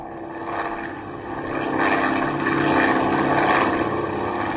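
Propeller aircraft engine droning as the plane climbs, a steady, dense roar that swells slightly in loudness and holds throughout.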